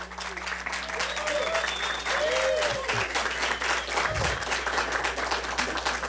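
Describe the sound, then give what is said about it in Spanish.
A live audience applauds a university choir in a radio station's auditorium. Dense, steady clapping fills the whole stretch at an even level, with some voices heard over it. “tenemos público en vivo en el auditorio de Radio UV, y vamos a brindarles, por supuesto, un caluroso aplauso a nuestro grupo consentido de la radio, el coro de la Universidad Veracruzana”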